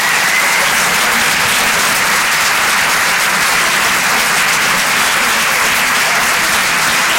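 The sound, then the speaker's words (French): Thunderous applause fills the room at the Rire et Chanson Comedy Club after a comedian's set ends. The clapping is a dense, unbroken wash that stays loud and even from start to finish. “Faites du bruit, s'il vous plaît, pour Bruno Becchi.”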